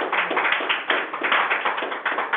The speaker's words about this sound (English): Just one more hand clap of praise.